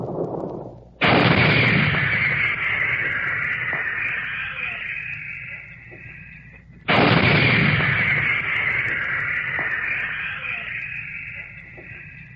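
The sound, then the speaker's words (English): Two heavy 155 mm artillery guns fire one after another, each blast a sudden loud boom trailing into a long, rumbling decay before the next shot. “Behind all this, the big guns, the 155s, pounded away at enemy positions.”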